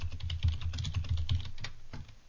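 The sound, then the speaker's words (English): Typing on a computer keyboard: rapid, irregular keystrokes clatter in quick succession, fairly soft, with no talking. “But, I'm going to type them in for you.”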